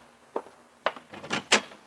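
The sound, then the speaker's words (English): A newspaper thumps and grazes against an apartment door at dawn in several soft, dull knocks and scuffs over under two seconds, the last one a little louder, with no voices. “the jarring thump of the paper grazing my door told me a new dawn was with us.”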